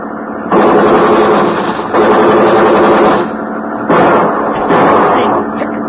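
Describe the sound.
Gunfire comes in four long, loud bursts of rapid shots, each lasting over a second, with brief gaps between them.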